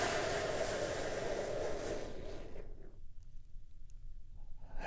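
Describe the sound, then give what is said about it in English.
A deep breath during a relaxation exercise, one soft airy rush lasting about two seconds before fading into near silence. “taking a big, deep, healing breath with me right now”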